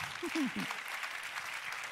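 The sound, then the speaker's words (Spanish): Quiet applause rises from the audience at a bilingual English and Spanish church service, a soft, steady patter of clapping with a voice briefly heard at the start. “If we're going to applaud, applaud. Si van a aplaudir, aplaudan.”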